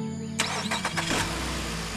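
A car engine starting after a repair: a few quick cranking bursts, then the engine catches and settles into a steady, loud running hum, with no talk.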